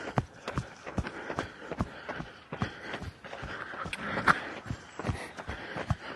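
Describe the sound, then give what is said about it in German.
Running footsteps as a jogger overtakes on an outdoor run near a main road, a quick, steady rhythm of many light footfalls with soft background noise between them. “Oh, jetzt werde ich hier von einem Läufer überholt.”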